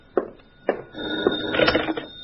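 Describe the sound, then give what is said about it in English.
A telephone bell rings in short metallic bursts, a few separate strikes followed by a denser rattling ring near the end, fairly faint and with no talk over it. “And then the phone rang. That's the phone, comrade. It's for you.”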